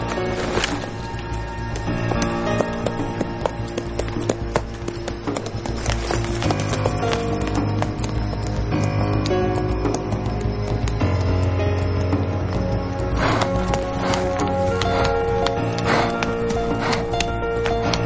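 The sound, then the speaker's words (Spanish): Horse hooves clip-clop steadily as a rider sets off on horseback in a western film, a continuous rhythmic patter of hoofbeats under a dense, loud music score throughout. “Luego coge un rifle y lo echa en una de las alforjas del caballo. A continuación sube en él y se marcha.”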